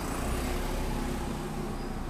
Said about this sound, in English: I love that there's bus noise and breeze noise and everything else like that